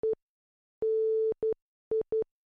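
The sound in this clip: Morse code beeps in a steady, mid-pitched pure tone: five beeps in all, one short, one long, then three short, with clear silent gaps between them.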